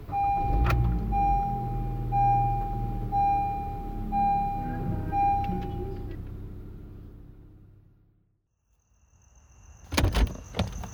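A car engine rumbles steadily under a repeating high electronic chime, then the noise dies away into near silence before a few sharp clicks and knocks at the end.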